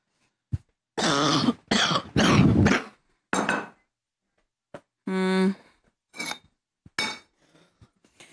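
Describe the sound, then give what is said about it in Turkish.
A person coughs from an allergy: a run of harsh, raspy coughs and throat clearing in uneven bursts, some long and some clipped, with quiet gaps between them. “Bu alerjiyle öksürük Allah vermesin gerçekten”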